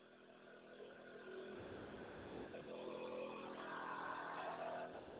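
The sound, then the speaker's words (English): A generator runs with a continuous low engine drone, steady and fairly faint, swelling slightly in places with no pauses. “Now, the noise you hear in the background is my generator.”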